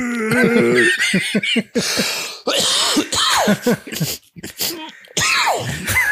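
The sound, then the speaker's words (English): A 47-year-old laughing hard until he starts coughing, loud bursts of voiced laughter followed by rough coughs and throat clearing. “I got laughed so hard I made myself cough.”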